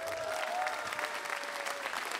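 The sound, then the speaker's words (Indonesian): Steady audience applause at an evening stand-up show, many hands clapping in a dense, continuous, fairly soft patter with no voices rising above it. “Sekali lagi boleh tepuk tangan buat Popon Carol.”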